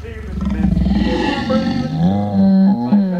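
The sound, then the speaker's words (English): A lion lounging on a bed gives a loud, rough roar that stretches over about three seconds, its low harmonic tone wavering and shifting in pitch, with other sound layered beneath it. “The lion is lounging on Aunt Nora's bed.”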